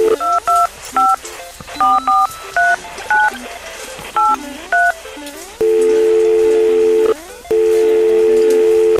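A telephone is dialed with a series of loud, short keypad tones in an uneven rhythm. Two long, steady ringing tones follow, separated by a brief gap.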